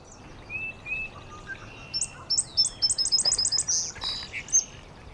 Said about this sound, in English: Up above us, there's an indigo bunting singing up in the maple right there. Bunting. That high-pitched sound, and every note is repeated, every phrase is repeated.